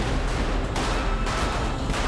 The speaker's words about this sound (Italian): Poi viene aperto il fuoco.